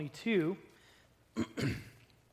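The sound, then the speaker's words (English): A man clears his throat after straining his voice on a high sung note. The first burst is voiced and gravelly; a rougher, shorter pair of clearing sounds follows after a pause. “I think I blew a gasket on that one song, so got to clear my throat here a little bit.”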